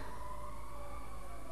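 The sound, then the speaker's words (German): Ambulance and fire engine sirens wail faintly as a steady, continuous tone over a low rumble in the background. “falls ihr hier den Krankenwagen hört und die Feuerwehr.”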